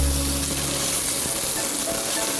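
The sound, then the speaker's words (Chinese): Beef searing in a hot pan after being flipped: a loud, continuous crackling sizzle with a dense hiss that holds steady throughout, with no talk. “好了，看这牛肉基本上现在就煎好了”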